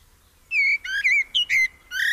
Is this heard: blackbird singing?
yes